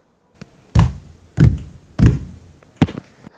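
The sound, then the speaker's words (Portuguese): Group stamping feet on the floor together in a slow rhythm, four heavy low thuds at fairly even spacing with a few lighter, scattered stomps around them, and no talking. “Vamos começar a bater com o pé no chão em ritmo mais lento, todo mundo junto, tá bom? Pode ser usando um pé ou usando os dois pés juntos”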